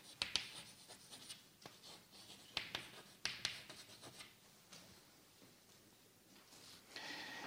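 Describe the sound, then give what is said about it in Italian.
Scratchy writing strokes during a lecture, many short irregular scrapes and taps in quick bursts with brief pauses, fairly faint and without talk. “scrivo qui situazione di vita”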